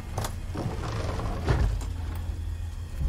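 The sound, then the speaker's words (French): A hotel door is unlocked with a key in a video game, giving a few sharp mechanical clicks and clacks over a steady low rumble. “Donc ici il y a un hôtel hein, à ouvrir avec la clé.”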